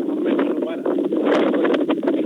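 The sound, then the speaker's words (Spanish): Very strong wind in Vallenar, heard over a phone call from someone outdoors: a steady, rough, buffeting roar with a thin, band-limited sound that barely lets up. “¿Eso que se escucha es el viento? Viento, viento muy fuerte. Ya como una hora de viento muy fuerte, fuerte.”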